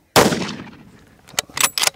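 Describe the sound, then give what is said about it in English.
A single loud gunshot fired while hunting an animal: a sharp blast with a long fading tail, followed later by a few fainter, quick knocks. “And the third shot doesn't kill it.”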